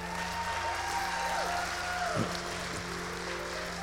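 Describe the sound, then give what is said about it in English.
A church audience applauds to welcome two guest pastors from Dallas, Texas: continuous, even clapping that stays at a steady level throughout without a clear build or fade. “Would you give them a big hand right now?”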